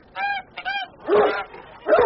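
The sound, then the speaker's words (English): A flock of farm Christmas geese honking in a railway station booking hall, several loud, nasal honks in quick succession, the later ones harsher and more crowded. “A flock of geese.”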